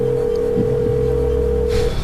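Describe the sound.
A telephone tone sounds as a call is placed on a comedy talk show: one steady, loud, unbroken note held for nearly two seconds, then cut off, with faint low rumbles beneath.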